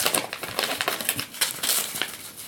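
A package is torn open and unwrapped, giving a dense, continuous run of crinkly, crackling rustles with no talk.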